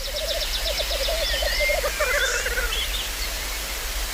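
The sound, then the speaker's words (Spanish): Male grouse-like birds calling while displaying at a lek: a loud, continuous stream of rapid, bubbling low notes, with higher squeaky whistles and trills layered above, and no voices. “Y los machos, pues como los urogallos, se reúnen en lek. En grupos donde cada uno se exhibe para que las hembras vengan y elijan al mejor. Y eso es lo que estáis oyendo.”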